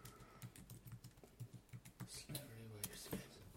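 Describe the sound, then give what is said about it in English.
Rapid keystrokes on a computer keyboard form a fast, steady clatter of many sharp taps, with a brief voice near the end. “It's funny that I've got big fat fingers and can't type fast.”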